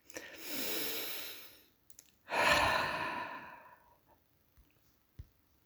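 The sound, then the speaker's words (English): A person takes a deep breath, heard as two soft, airy breath sounds, the second louder and longer like a sigh, followed by a few faint clicks. “Maybe this is a good time to take a breath.”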